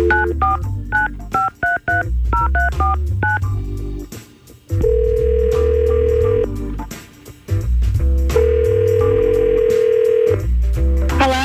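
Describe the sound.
A telephone call being placed, with many quick keypad dialing beeps in uneven bursts, then two long, steady ringback tones separated by a pause as the line rings out.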